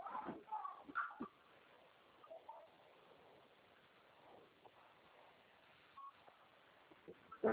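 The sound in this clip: Telephone keypad tones sound during a call transfer on a narrow phone line. A few short beeps are set in a rough, noisy background with murmuring.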